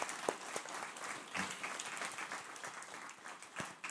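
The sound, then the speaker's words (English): A church audience applauds steadily in a soft, even patter of many hands clapping. “But we're proud of these guys. Let's give them a hand this morning.”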